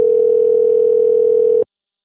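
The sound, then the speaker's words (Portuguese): A telephone line tone, one loud mid-pitched note held steady and unbroken for about a second and a half, then cutting off abruptly into silence. “Mensagem gratuita de telefone ocupado. Aguarde alguns minutos para voltar a ligar.”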